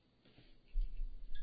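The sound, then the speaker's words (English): A microphone stand being moved gives low handling rumbles and bumps that build after a quiet start, with a few faint ticks on top. “Montana man doesn't like when I move my mic stand. He thinks it's a chair.”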